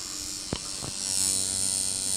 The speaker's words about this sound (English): So now you're just going over the outline with your needle. Right. Now the machine actually moves this needle